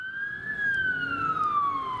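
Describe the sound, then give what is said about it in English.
An emergency vehicle siren on the road gives one loud continuous wail. It climbs briefly, then slowly slides down in pitch, with a fainter harmonic above it and a low traffic rumble beneath. “Being too close to sirens on the road?”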